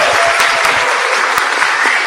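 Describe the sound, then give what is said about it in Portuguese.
Studio audience applause at a talk show, a short burst of dense, lively clapping from many hands, with a few sharper individual claps standing out. The level stays even throughout. “o que iria dizer a plateia depois do aplauso natural e espontâneo que ela vai fazer?”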